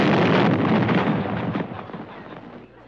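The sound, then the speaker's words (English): A single old cannon fires cannonballs in a salute: one heavy blast of broad, booming noise that rolls on and slowly fades over nearly three seconds. “all we could find was one cannon and three cannonballs. So what we're gonna do is three-baller seven times. Three-ball... Fire!”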